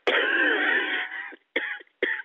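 Coughing from a smoker: one long, harsh, rasping cough followed by two short, sharp bursts. The coughs are loud, with no talk over them.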